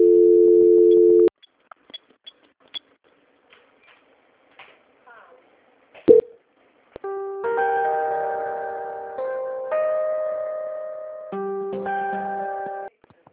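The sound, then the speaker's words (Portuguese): Telephone line tones play during a call transfer: first a steady tone, then scattered clicks and one sharp click, then a repeating sequence of electronic notes in a regular pattern. “Vou pedir para o senhor ficar na linha e não desligar, tá? Vou passar de novo aqui, vou transferir.”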